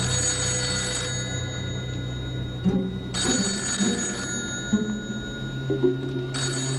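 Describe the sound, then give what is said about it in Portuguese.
A telephone bell ringing in long, steady rings separated by short pauses, fairly faint and with no talk over it. “Dave, sabia que o telefone está tocando?”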